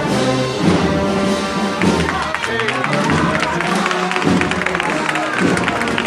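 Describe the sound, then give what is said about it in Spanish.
Crowd applause in a Seville street during a Holy Week procession at night, a dense, continuous patter of clapping mixed with thuds and voices talking throughout. “a medio paso en la calle. Con aplausos es recibida ya por donde va.”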